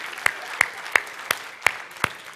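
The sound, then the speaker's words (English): Applause at a church worship service is heard as six sharp, evenly spaced claps over a soft background hiss. The claps keep a steady rhythm at moderate loudness, with no voices. “Come on, give God a round of applause.”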